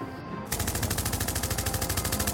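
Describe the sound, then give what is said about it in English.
Rapid automatic gunfire in a dramatized street confrontation, a fast, evenly spaced burst of shots that kicks in abruptly after half a second and runs steadily to the end. “Watch it! Don't shoot me!”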